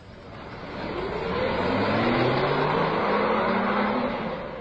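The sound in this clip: A car engine pulls away, rising from a low rumble into a steady, fairly loud droning hum that holds and then eases slightly at the end, with no voices.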